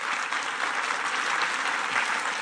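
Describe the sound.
An audience in a church applauding: dense, steady clapping from many hands, evenly loud throughout with no talk.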